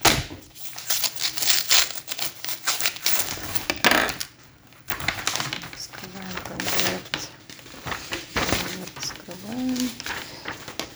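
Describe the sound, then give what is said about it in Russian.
Paper rustling and tearing as a paper envelope is opened, a dense, crackly run of crinkles and rips that continues through most of the stretch, with people talking over it. “Вскрываем конверт.”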